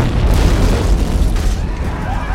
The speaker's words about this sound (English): The missile exploded in the street a few dozen yards away, creating an instant crater of orange flame and black smoke.